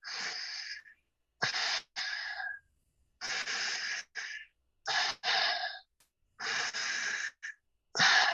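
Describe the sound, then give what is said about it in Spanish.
Slow breathing in and out through the nose, heard as several soft, airy rushes of breath separated by short silences, alone with no voices. “Uno, inhala y exhala solo por tu nariz. Entonces vamos a hacer tres respiraciones así.”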